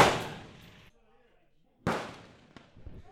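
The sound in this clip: Two gunshots ring out on a shooting competition stage, each a sharp, loud crack with a fading tail, almost two seconds apart, with quieter low rumbling after the second.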